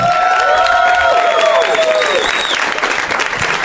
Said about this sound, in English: Fantastic turnout, that was a nice loud ovation there at the beginning.